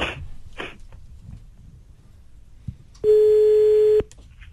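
A single steady telephone tone lasting about one second as a call is placed to a mobile phone, preceded by a faint click against low background hiss.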